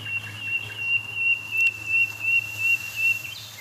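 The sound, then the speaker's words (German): Nightingales singing shortly after midnight on the first of May: a thin, high, sustained whistling note with rhythmic pulsing, fairly faint over a low, steady hum. “Weil wir haben es hier mit für uns hörbaren 5 Nachtigallen zu tun.”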